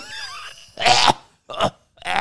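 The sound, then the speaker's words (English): Harsh coughing imitated by a voice while smoking a cigarette: three rough, breathy bursts, the first longest, separated by short silences. “And I just start doing the whole coughing bit again where I light up the cigarette”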